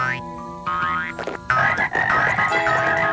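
Cartoon frogs croak in a series of loud, bouncy, tonal croaks with springy, musical sound effects, several bursts following one another in quick succession.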